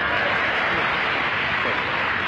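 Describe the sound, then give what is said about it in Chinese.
Live audience applause for a stage performer, with the balcony joining in: dense, steady clapping that stays loud and unbroken throughout, with no distinct voices standing out. “这个刚才您给他鼓了半天掌了，那么我这个掌声呢，可没有他热烈啊。”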